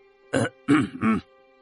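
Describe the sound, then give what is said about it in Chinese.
A man clears his throat in three short, rasping bursts, heard alone with silence before and after. “慕卓云咳了一声”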